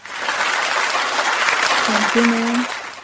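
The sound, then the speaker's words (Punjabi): Audience applause for a quiz contestant who has just answered correctly: dense, steady clapping from many hands throughout, with a brief voice rising above it near the end. “ਵਾਹ ਜੀ ਵਾਹ, ਤੁਹਾਡੇ ਵਾਸਤੇ ਤਾੜੀਆਂ ਅਸੀਂ ਵਜਾ ਦਿੰਦੇ ਹਾਂ ਜੀ।”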